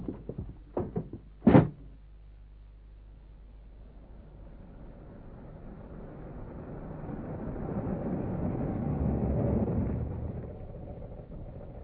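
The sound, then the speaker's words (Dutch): A hatch is shut: a few sharp knocks and a heavy thunk come near the start, then a low rumbling noise builds gradually and eases slightly at the end. “Ho jongens, naar binnen. En doe het luik achter jullie dicht.”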